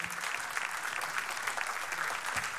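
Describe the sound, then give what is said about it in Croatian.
Applause from a concert audience after an alto saxophone and drums performance: a dense, even patter of many hands clapping, sustained at a steady level throughout. “Jedan velik aplauz Miha Đerek na alt saksofonu i Bruno Domiter na bubnjevima.”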